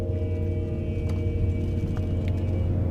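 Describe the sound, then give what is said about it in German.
Steady low engine rumble of a black pickup truck driving off, a continuous droning hum at even loudness with no clear rise in pitch and no voices. “Schweigend fährt der Fahrer des Wagens los.”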